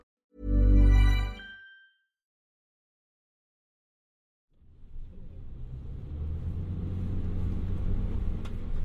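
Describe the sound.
Low road rumble of a car driving along the main highway out of Tbilisi, Georgia, fading in after a silent stretch and building into a steady, broad engine-and-tyre drone.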